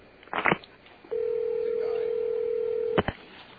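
A telephone dialing a number to call someone back: a few short keypad beeps, then a steady tone held for about two seconds, ending with another brief beep.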